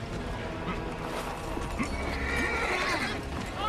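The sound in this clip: A horse whinnies against a dense, busy backdrop of continuous sound. A short neigh with a wavering pitch stands out near the end.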